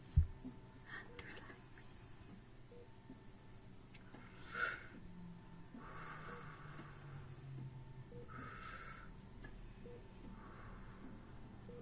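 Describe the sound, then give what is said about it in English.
Slow, deep breathing in a hospital-themed ASMR relaxation session: a few long, soft, airy breaths swell and fade in the second half, faint over a low steady hum. “And I want you to just take in some big, deep breaths. Okay. As much as you can.”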